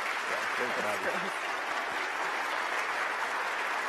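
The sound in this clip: An audience applauds steadily for the full four seconds to welcome a guest, an elementary school principal, onto a stage. A voice is briefly audible beneath the clapping early on.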